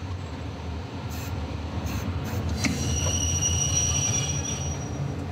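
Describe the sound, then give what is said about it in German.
Wheels squeal as a locomotive hauling construction-train wagons comes to a brief halt near Koblenz, over a steady low rumble, with thin high-pitched squeal tones entering midway and lingering to the end. “Roland ist mit seiner Lok wieder im Geschäft, hauptsächlich mit Bauzugwagen. Zwischen zwei Aufträgen in der Nähe legt er hier einen kurzen Aufenthalt ein.”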